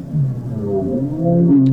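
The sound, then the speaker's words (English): Whale song: low, moaning tones that slowly glide and waver in pitch, several overlapping lines sustained loudly throughout with no voices. “You should listen to a whale sing.”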